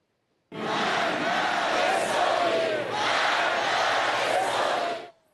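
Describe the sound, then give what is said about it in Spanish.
A massive crowd fills the streets of Tehran, mourning their leader and protesting. A loud, continuous roar of many voices shouts and chants together for several seconds. “Así se escuchan las movilizaciones masivas que inundan las calles de la capital.”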